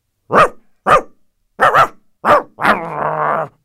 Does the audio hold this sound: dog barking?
yes